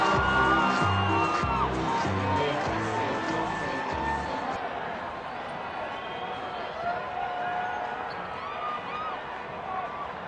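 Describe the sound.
Crowd shouting and cheering at a live contest where the audience reaction is measured, a dense, loud and continuous roar with high whoops rising out of it throughout.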